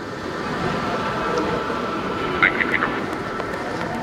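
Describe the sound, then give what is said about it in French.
Train arriving in a station: a steady low rumble runs throughout, broken by a few brief high metallic squeals near the middle. “Un train arrive dans la gare.”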